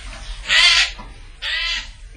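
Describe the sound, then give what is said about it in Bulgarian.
Two harsh, raspy chattering calls from a magpie arriving at its nest, each lasting about a third of a second with a short gap between them, loud over a faint low rumble. “Ето, че и свраката пристига в гнездото си, време е птиците да се прибират.”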